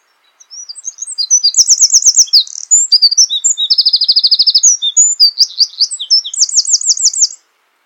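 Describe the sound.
Wren song: a loud, high, continuous run of very rapid trills and sharp chirps lasting about seven seconds, with no other sounds.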